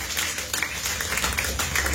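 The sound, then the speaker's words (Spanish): Clapping from a church audience praising God: a fairly quiet, dense patter of many hands, with irregular sharper claps standing out, steady for the whole stretch. “Dale un aplauso de palmas fuertes a nuestro Dios.”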